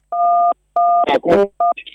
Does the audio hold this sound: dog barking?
no